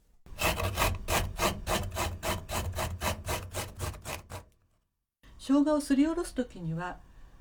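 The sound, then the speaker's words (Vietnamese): Peeled ginger being grated: many quick, regular rasping strokes in a steady rhythm, then a pause before a voice speaks. “Gọt vỏ gừng, sau đó đem mài.”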